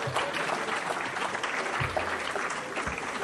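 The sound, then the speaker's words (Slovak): Audience applause fills the whole stretch as people clap at the speaker's request: a dense, even wash of many hands clapping, fairly soft and steady, with a few low thumps underneath. “Zatlieskajte im.”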